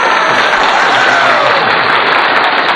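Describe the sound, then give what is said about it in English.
Loud audience applause, a dense, sustained wash of many hands clapping at once that stays at an even level for nearly three seconds. “Thanks. Your applause was good. We can get another one.”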